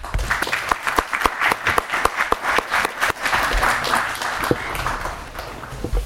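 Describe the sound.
Audience applause welcoming a lecturer at a university law talk, many hands clapping in a crisp, steady patter for the whole stretch.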